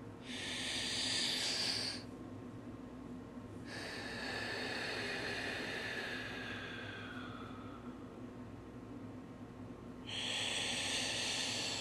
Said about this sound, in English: Let's begin with a few deep breaths.